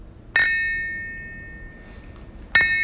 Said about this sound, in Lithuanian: O taip skamba plonas gražus krištolas.